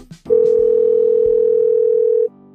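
A telephone ringing tone on an outgoing call: a single steady, mid-pitched tone, loud and alone, held for about two seconds and then cut off.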